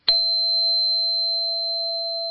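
A lone 666-hertz tone begins with a brief sharp attack and then holds steady and pure for about two seconds, fading only slightly, with a faint higher overtone ringing above it.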